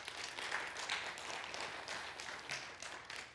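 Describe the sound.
A church audience applauds during a sermon with a steady, dense patter of clapping hands that carries on at an even level throughout, with no voices over it.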